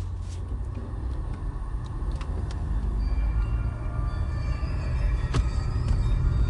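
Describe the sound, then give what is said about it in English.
A car driving along a road gives a steady low rumble of engine and road noise that stays constant and slightly builds, with a few faint clicks and no talking. “Let me check my GPS because I'm driving right now here.”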